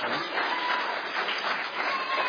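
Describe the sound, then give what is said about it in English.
Audience clapping for a child at a gathering: continuous, even applause from many hands, steady in loudness throughout. “So he messaged us yesterday and said he's not going to be here. And so this is Cason's. Let's all clap for Cason.”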